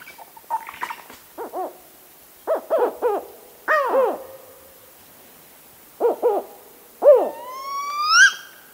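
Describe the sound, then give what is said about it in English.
Spotted owl calls in a series of short, barking hoots in small clusters separated by pauses, ending with a longer rising, whistled note. “And so there's at least a dozen different types of calls that spotted owls use in various different sort of communications.”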